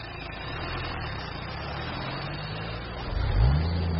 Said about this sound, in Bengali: আমাদের জিপ সেই সামান্য জলধারা আর ছড়িয়ে থাকা নুড়ি পাথরের ওপর দিয়ে কলকল ঝরঝর শব্দ করতে করতে দুলকি চালে নদী পেরিয়ে দিব্যি উল্টো দিকের খাড়া পাড়ের ওপর চলে গেল।